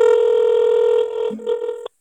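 A telephone call is placed and a steady electronic tone hums on the line. The tone holds evenly, wavers briefly near the end, then cuts off with a click into silence.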